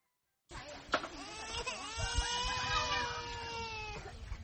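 A two-year-old child crying in a tent camp, a long, sustained, wavering wail that starts abruptly after a moment of silence. A sharp click comes near the start, and soft low thumps sit beneath the cry.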